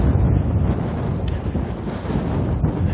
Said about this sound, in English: there's a little wind